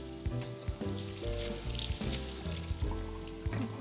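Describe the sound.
Garlic sizzles as it is added to a hot pan, a bright, steady hiss of frying that holds throughout with a few soft clatters of pan or utensil.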